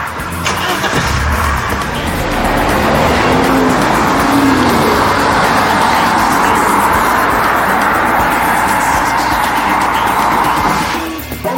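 A car engine starts and the car pulls away: a sudden loud roar that holds steady for about ten seconds before cutting off at the end, with no voices.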